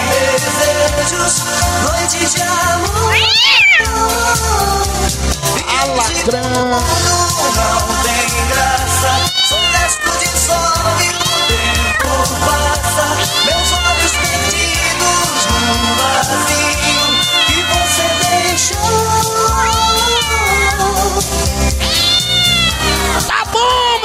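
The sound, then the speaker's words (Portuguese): A black cat meowing, with repeated wavering meows that rise and fall over loud, thumping dance music and continue throughout. “Olha o gato negro ali, ó. Fala, gato preto!”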